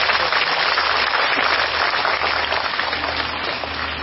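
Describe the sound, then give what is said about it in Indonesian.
Applause from a crowd at a live event honouring a performer: a dense, continuous hiss of many hands clapping at once, steady and fairly loud throughout with no breaks. “kita beri tepuk tangan untuk beliau.”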